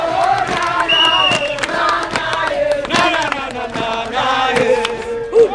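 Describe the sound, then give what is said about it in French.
A large festive crowd in event T-shirts and caps welcomes the Youth Olympic Games torch at Carrefour de la Padoie as the procession heads toward Cambérine. Dense cheering and chanting voices run throughout, with occasional high whistle-like tones and sharp hits. “Carrefour de la Padoie, une foule immense en t-shirt et casquette à l'effigie des JOJ accueille la torche olympique. Dans un élan festif, le cortège prend la direction de Cambérine.”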